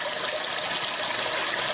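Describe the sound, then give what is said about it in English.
A toilet flush played back by a Japanese restroom sound device: a steady, even rush of water that holds without a break and has no voices over it. “The solution? A device that mimics the sound of an ever-flushing toilet.”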